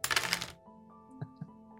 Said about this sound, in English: So 5. I am rolling 8 dice.